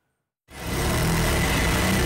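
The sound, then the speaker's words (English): Sewing machines run in a Cairo workshop turning out Egyptian national flags. After a brief silence, the whir starts abruptly and holds as a steady, dense mechanical drone. “The deeper Egypt go into this World Cup, the busier these sewing machines become. Inside this Cairo workshop, they can't make the national flag quick enough.”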